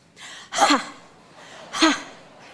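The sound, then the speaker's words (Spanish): Breath pushed out onto a hand and shaped into a raspy Spanish J sound. There are two strong, hissing exhalations, each preceded by a softer breath, with no talk. “Quiero que respires en tu mano. Ahora quiero que le metas la J.”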